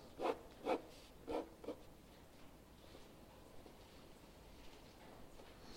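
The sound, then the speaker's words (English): A pen drawing a yield curve: four short, scratchy strokes in the first two seconds, then near quiet with only faint scrapes. Soft overall, with no talk. “I'm going to draw.”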